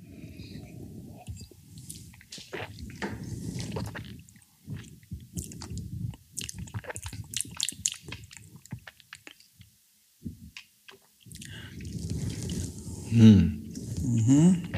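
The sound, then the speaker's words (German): Soft, wet mouth sounds of someone eating raspberry yogurt with honey: faint squishy smacks come in scattered bursts, quiet overall, with a denser, louder cluster near the end. “Probieren wir auf jeden Fall mal. Himbeerjoghurt mit Honig?”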